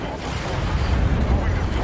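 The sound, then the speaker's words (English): Long-range missiles launching in a video game produce a loud, continuous low rumble with a broad wash of noise above it. The roar stays steady throughout, without clearly separate blasts. “He's fucking launching missiles. Long-range missiles.”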